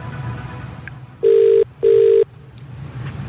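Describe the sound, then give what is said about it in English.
A telephone ringback tone as a call is placed during a game show prize draw: two steady, mid-pitched electronic rings, evenly spaced and of equal length, over a low background hum. “We are dialing.”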